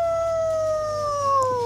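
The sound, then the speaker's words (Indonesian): A person imitating a wolf howl on stage, singing one long sustained howl whose pitch slides slowly downward. The tone is clear and loud with no talk over it. “Bener-bener kayak serigala ya. Serigala banget.”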